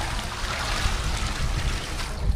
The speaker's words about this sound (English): He fills two jerry cans with brown, muddy water and empties them into a tank.